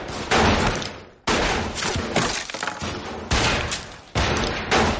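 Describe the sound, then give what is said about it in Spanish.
Gunfire rattles through a shootout inside a church as shooters advance on others hiding among the pews. Loud, dense bursts of shots follow one another in rapid volleys throughout. “Ethan y Malcolm avanzan tiroteando a los otros que están escondidos entre los bancos.”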